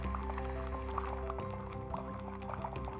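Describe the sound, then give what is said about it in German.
Lava bubbling in the video game Minecraft, a run of liquid pops and drip-like blips scattered over a steady tonal hum, moderately loud and without speech. “Hier ist Lava.”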